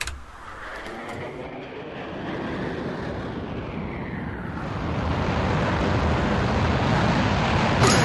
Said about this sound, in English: it was like I was blasting off into space there. Ooh. The countdown